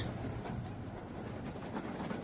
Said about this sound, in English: Thank heavens we managed to catch this train.